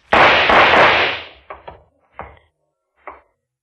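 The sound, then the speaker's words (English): Gunshots from a handgun in a radio drama: one long, loud blast, then four sharper, shorter bangs spaced out over the next two seconds. “What were those shots?”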